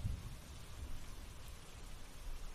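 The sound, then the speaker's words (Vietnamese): Rainwater drips from a torn conical hat during a downpour, making a faint, steady, even patter that continues without pause. “Từ cái nón, nước mưa cứ thế mà nhỏ tong tỏng xuống.”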